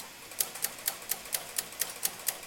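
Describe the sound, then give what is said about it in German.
Rhythmic rattling from a Colossus codebreaking machine as its long paper tape loop races around: about nine evenly spaced, faint clicks tick by at a steady pace, with no voices. “Im Rhythmus des Colossus blinken die Lämpchen für die Anzeige. Jedes Mal, wenn es rattert, ist die Papierschlaufe mit der Nachricht einmal im Kreis herumgelaufen”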